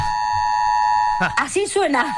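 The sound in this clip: A building alarm sounds in the hallway of a high-floor apartment block, a steady high electronic tone rich in harmonics, soon joined by a person talking over it.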